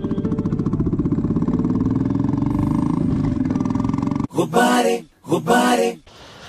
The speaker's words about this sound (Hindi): ठंड में ठिठुरते हुए उसे सामने से कोई बुलेट पर आता नजर आता है